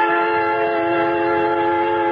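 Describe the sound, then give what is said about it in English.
A creaking train lumbers out of a station through the rail yards, heard as a loud, unbroken droning tone with layered harmonics that holds steady throughout, with no voices. “At the West Station, I board a creaking train and wait and wait until finally it lumbers out through the yards.”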